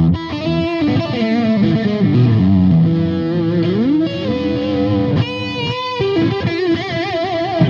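Electric guitar playing an old-style rock tone through effects pedals, loud and distorted, with sustained chords and sliding notes, a few brief breaks and no talk.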